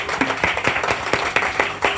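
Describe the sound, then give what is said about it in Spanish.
Loud applause from an audience at a live event at a comic convention. Close, distinct individual claps stand out in a quick, uneven rhythm over the wash of many hands clapping. “Por supuesto, un aplauso, por favor.”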